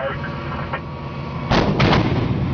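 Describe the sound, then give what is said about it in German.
Self-propelled howitzers of the Swiss Army firing during an exercise at Bière: after a low rumbling background, a couple of heavy, loud booming reports burst out in quick succession and ring on. “Panzerhaubitzen, hier bei einer Übung in Bier.”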